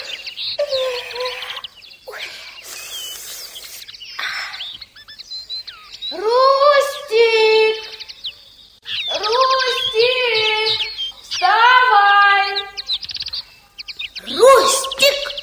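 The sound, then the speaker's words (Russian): Birds sing at sunrise over a forest camp after the frogs fall silent. Bursts of bright, rapid chirping and trilling phrases repeat from several calls, with short gaps between them. “Лягушки отпели и запели птицы.”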